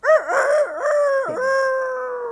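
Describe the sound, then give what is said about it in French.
A person imitates a rooster crowing in one loud vocal cry. It warbles at first, dips briefly, then holds a long, steady tone to the end. “Vous imitez le coq maintenant.”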